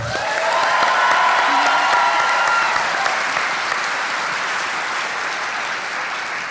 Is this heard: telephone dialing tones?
no